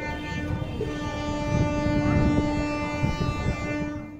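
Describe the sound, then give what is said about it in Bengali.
Superfast Samta Express train arriving at a railway platform: a steady low rumble carries sustained tonal humming lines throughout, with the rumble swelling slightly midway. “यात्री कृपया ध्यान दें गाड़ी क्रमांक আট superfast समता express थोड़ी ही देर में प्लेटफॉर्म क्रमांक तीन पर आ रही है”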